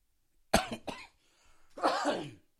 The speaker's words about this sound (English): I am so sorry, for I don't have a cough button, so I'm so sorry.